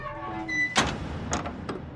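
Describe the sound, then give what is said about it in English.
A submersible's hatch is being closed, giving a few heavy, short metallic clunks after a low steady hum, with the final knocks quicker and lighter than the first. “Hatch closed. We're seated.”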